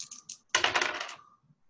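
Dice rolled during a Call of Cthulhu tabletop role-playing game: a few light clicks, then a quick burst of rapid, bright clattering rattles that dies away in about a second.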